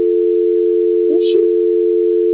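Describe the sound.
A telephone call-transfer tone, a loud steady unbroken electronic tone that holds at one pitch for the whole clip, with a brief faint sound passing over it midway.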